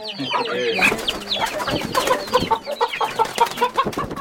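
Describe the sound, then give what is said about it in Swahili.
Indigenous village chickens cluck in a busy, overlapping stream of many short, throaty calls, with a few higher squawks mixed in. “shirika la Bio Vision African Trust, tunaangazia mbinu za ufugaji wa kuku wa kienyeji.”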